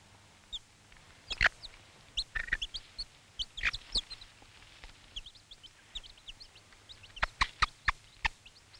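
A mother hen gives a food-offering call to her chicks: a faint series of short, low clucks mixed with sharp clicks. Thin, high peeps from the chicks are scattered throughout, and a quick cluster of calls comes near the end.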